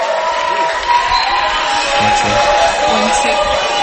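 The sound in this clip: Audience cheering and applauding a performer at a gospel music event, a dense, steady roar of clapping and shouting voices that stays loud throughout.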